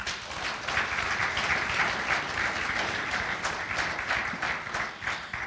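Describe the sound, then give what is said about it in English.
Audience applause welcoming new members, a dense, steady patter of many hands clapping that carries on throughout and tapers slightly at the end. “let's just give them a hand, please.”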